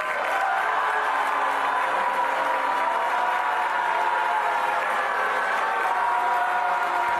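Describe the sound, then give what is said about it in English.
A Columbia University graduation crowd boos and chants a protest slogan, a steady, dense roar of many voices that holds at one level from start to finish. “Claire Shipman, was met with loud boos and chants of Free Mahmoud as she walked up to the stage during graduation ceremony Tuesday.”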